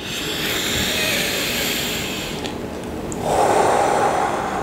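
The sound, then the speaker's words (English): Slow, deep breathing during a guided breathing exercise, an airy, steady rush of breath that shifts in tone near the end. “exhaling. Five full deep breaths.”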